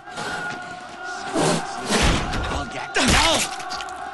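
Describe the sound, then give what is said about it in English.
Heavy thuds and crashing impacts as a face is smashed with a lump of debris at a doorway in a film scene. Three loud, separate blows land with a crunchy, rubble-like edge over a faint background. “Using a lump of debris, Theo smashes Sid's face as he appears round the door.”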